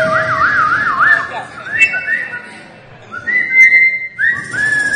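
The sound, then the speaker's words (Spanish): Melodic whistling carries a solo passage in a song, a bright, wavering tune of slides and held notes that pauses briefly midway and then resumes over a soft backing. “Es un solo de silbidos este tema.”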